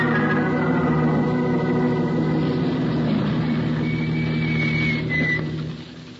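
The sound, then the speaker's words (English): A car engine idles in a steady, low, droning hum with layered tonal overtones. It holds level, then fades away over the final second. “keep the motor running”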